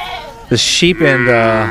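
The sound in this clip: Sheep bleat at a sheep and wool festival in Howard County, Maryland: a couple of loud, wavering, nasal calls, the last one drawn out.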